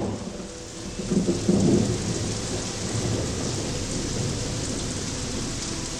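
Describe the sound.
Heavy rain pours steadily while a low roll of thunder swells early on and then settles back into the constant wash of rainfall.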